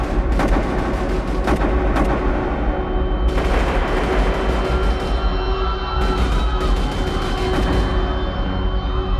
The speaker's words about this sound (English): Just as the prayer ended, shots rang out.